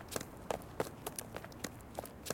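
Footsteps of someone running away: many quick, light steps in a slightly uneven rhythm, fairly faint, heard alone with no voices.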